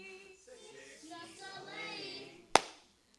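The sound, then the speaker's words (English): A single sharp hand clap rings out right after a sung line in a casual Christmas lesson. It cuts in loudly and abruptly, then fades quickly, following the quieter singing voice. “I shouldn't clap at you every time you do that”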